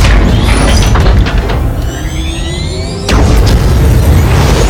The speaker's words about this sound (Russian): С корабля к земле устремляется баллистическая ракета.